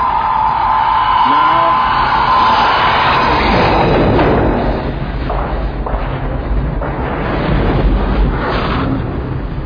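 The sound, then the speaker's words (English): A torpedo strikes and explodes underwater, giving a loud, sustained churning roar over a deep rumble. A steady tone fades out early on, and rolling surges of turbulent noise fill the remaining seconds. “Torpedo impact.”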